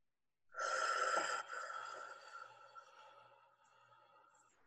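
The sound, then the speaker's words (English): Slow breathing through the mouth with the tongue resting behind the front teeth: one steady hissing inhale, then a longer, softer exhale that gradually fades, heard alone. “right behind my front teeth for this whole inhale and exhale. So I'm going to do it. So you'll just listen for my breath. So that's what you're going to hear in this, not my counting just yet.”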